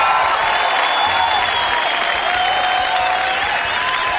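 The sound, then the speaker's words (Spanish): Lively studio audience cheering and applauding, a dense, steady wash of clapping mixed with shouts and whistles, loud and unbroken for the whole stretch. “qué público más prendido este, no puedo, no puedo controlarlo.”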